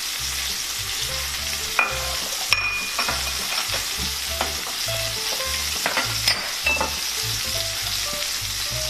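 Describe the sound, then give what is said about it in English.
White Chilean sea bass frying in butter in a pan over lowered heat, giving a steady, loud sizzle and crackle throughout with a few sharp pops and stirring touches and no talk. “Turn the heat down a little bit, and it's time to get this swimming in all the stuff that makes it taste so good. Some butter.”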